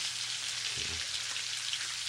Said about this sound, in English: A little grease splatter over here,